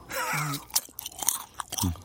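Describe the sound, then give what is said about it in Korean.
Someone chews and eats food, with a few sharp crunchy bites among softer, wet chewing sounds. “어, 맛있게 먹는다. 어우. 어, 음. 어, 왜 이렇게 맛있게 먹어?”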